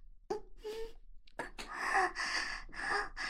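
Gasping, partly voiced breaths of two people in a quiet living room: a couple of short sharp intakes at first, then a longer stretch of heavy, moan-like breathing that stays fairly loud.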